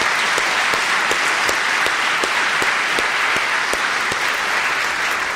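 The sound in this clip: A chapel audience at a seminary applauds to welcome a speaker. The clapping is loud, dense and unbroken, a steady roar with sharp individual claps standing out throughout.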